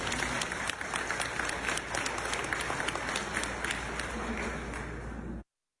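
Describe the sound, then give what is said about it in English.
An audience applauds with sustained, dense clapping that holds at a steady level for several seconds, then cuts off abruptly into silence. “It's the sustained applause that really makes the difference there.”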